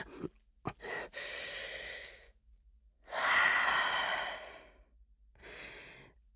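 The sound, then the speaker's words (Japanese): Deep breathing by someone trying to calm down: a few quick sniffs, then three long, airy breaths with no voice, the middle one the loudest and fullest. “落ち着いて。深呼吸、深呼吸。”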